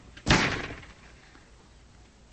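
A door slams as someone storms out during a heated argument: one loud, sharp bang that quickly dies away into a low, steady hiss.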